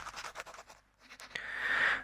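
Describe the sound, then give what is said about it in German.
A pen scratches across a notepad, first in short, faint strokes and then one longer, louder stroke near the end. “warte mal, ich schreibe das nochmal hier auf das BA-Pad.”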